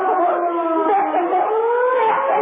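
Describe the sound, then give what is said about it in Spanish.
Police patrol car sirens wail loudly and continuously, with several overlapping wavering tones that sustain throughout without a break. “Tres autos patrullas se acercaban velozmente hacia ellos. ¡Deprisa, huyamos! Las patrullas se acercan cada vez más.”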